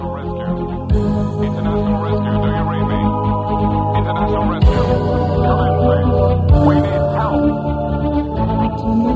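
A woman sings a pop song from a TV series over full instrumental backing, with a steady beat and sustained chords, loud and continuous.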